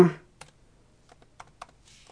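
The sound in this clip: Faint, sparse clicks of typing on a computer keyboard: a handful of separate keystrokes at irregular intervals, with a soft hiss near the end.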